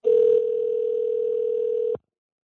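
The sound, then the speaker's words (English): A steady telephone dial tone is heard before a call is placed. The single hum holds evenly for about two seconds, then cuts off abruptly with a click, and nobody talks. “I'm just going to dial Harry as we're speaking right now.”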